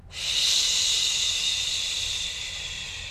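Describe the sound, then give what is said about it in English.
An extended exhale with shushing, a bright, steady hiss of breath that starts abruptly and slowly tapers over about three seconds, with no voice. “I will take a breath and I will do an extended exhale. And I do a little shushing on the exhale”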